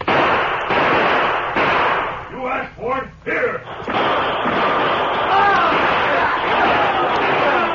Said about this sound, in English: The masked man and the Indians with him were firing before the rustlers could use their guns effectively.